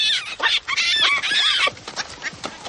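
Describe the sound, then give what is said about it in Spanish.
Monkeys screech as they pass by on a farm in Africa in a 1985 drama, a burst of many shrill, chattering calls packed together, loud at first and thinning into scattered cries. “unos monos pasan chillando”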